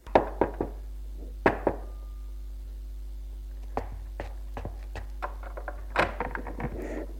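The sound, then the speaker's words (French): Knocking on the door of a concierge's lodge: sharp raps in a few short groups, then scattered lighter taps over a steady low hum. “Il frappe à la loge de la concierge qui lui ouvre.”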